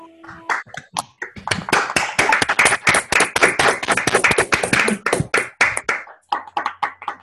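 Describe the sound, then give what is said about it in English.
Participants on an online call unmute and clap after a talk, with loud, fast, overlapping hand claps in a sustained burst that stops abruptly, followed by a few isolated claps. “I think we should all start by unmuting and clapping”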